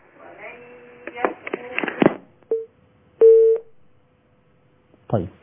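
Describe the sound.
Telephone line tones of an incoming call on a call-in line sound after a stretch of talk: a short steady beep, then a longer one, before a voice returns at the end.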